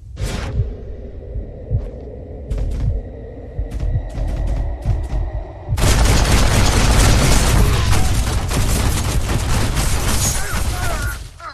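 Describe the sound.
Gunfire and explosions from a Western open-world video game: scattered sharp shots over a low rumble at first, then a sudden, loud, dense barrage of overlapping shots and blasts that continues to the end.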